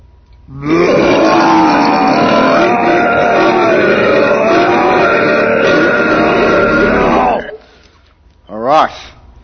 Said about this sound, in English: there was a video, it wasn't just a black thing with a burping sound.